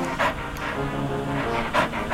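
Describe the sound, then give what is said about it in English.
A dog panting and snuffling on a car's back seat, with soft, quick, rhythmic breaths and a few stronger huffs over a low steady rumble. “dozing on the back seat, panting and snuffling.”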